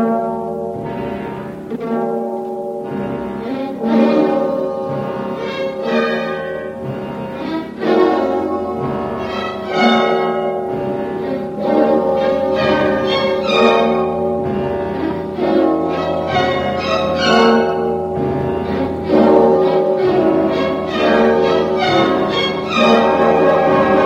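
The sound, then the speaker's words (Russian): Church bells and hoarse music blare from a radio loudspeaker in one loud, unbroken wash of dense, tonal sound, with no voices over it. “И вслед за тем в радиорупоре грянули колокола и заиграла хриплая музыка.”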